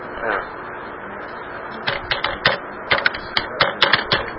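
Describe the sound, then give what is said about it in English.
Computer keyboard typing as a search term is entered in a web browser: a brief voice at the start, then many quick, light key clicks in uneven bursts through the second half. “I'll just type in bookmarklets as a search term”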